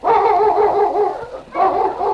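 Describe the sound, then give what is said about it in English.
A sled dog team barks and yelps in excited, overlapping cries with wavering pitch, in two loud bursts separated by a brief dip. “A short time later, Sergeant Preston came around a bend with his dog team. He stopped the dog sled”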